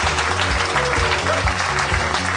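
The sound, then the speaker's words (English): Audience applause at the close of a live show: dense, steady clapping from a large crowd that holds at an even level for the whole stretch without a break. “Nobody go anywhere. Keep clapping. It's fun.”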